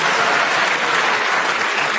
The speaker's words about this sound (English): You needn't clap every correct challenge, otherwise we'll never get to the end of the show.